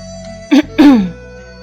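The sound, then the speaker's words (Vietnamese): A dry cough from a teacher: two short, rasping bursts close together, the second longer and trailing off, heard alone with no talk. “Triển Chiêu còn đang vò đầu suy nghĩ, liền nghe thấy tiếng Trầm phu tử ho khan một tiếng”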